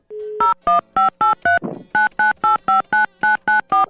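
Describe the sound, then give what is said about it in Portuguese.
Telephone keypad tones dial a number to retry a call. A short steady tone comes first, then thirteen rapid, evenly spaced beeps, with a brief noisy burst after the fifth. “Essa caixa postal já está cheia. Tenta ligar. Tentar mais uma vez, vamos lá.”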